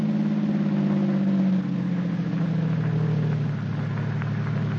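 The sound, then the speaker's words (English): A car drives along a road with a steady, moderately loud mid-pitched engine hum and road rumble. The engine tone eases slightly after the first couple of seconds and then holds even. No one speaks. “Now drive on up the road away.”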